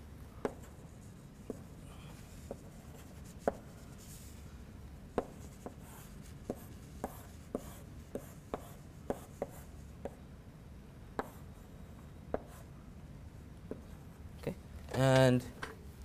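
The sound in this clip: Drawing a graph example on a board produces many short, dry ticks and taps scattered irregularly over a faint background hum.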